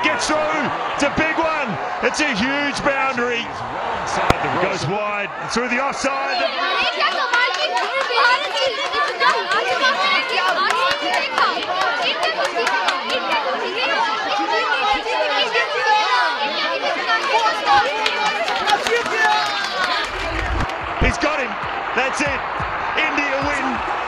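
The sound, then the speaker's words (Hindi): Crowd chatter in the stands at an India–Bangladesh cricket match at Ambedkar Stadium, Delhi, with many overlapping voices forming a dense, steady babble throughout. “Anushka भीड़ की बातों को ध्यान से सुन रही थी।”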